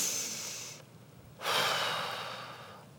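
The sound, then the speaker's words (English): Deep breaths blown out: two long, airy breath sounds separated by a short pause, the second a stronger, sustained blowing exhale that slowly fades. “I want you to take 3 deep breaths like this. Blow it out.”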